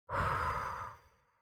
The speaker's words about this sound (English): Take a gentle breath in through your nose and feel its cool air and how it hits the back of your throat. And then release it through your mouth.